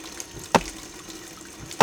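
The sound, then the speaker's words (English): Tap water runs while raw chicken is washed: a faint, steady trickle with two brief, louder splashes. “I need you to wash the chicken first.”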